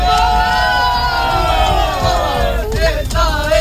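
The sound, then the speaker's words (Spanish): A large crowd of young people cheers and shouts ahead of a gathering with the Pope in Madrid, a loud, sustained wash of excited voices with whoops and calls rising above the din. “Este es el sonido de algunos de los miles de jóvenes que están deseando llegar a Madrid para este encuentro con el Santo Padre.”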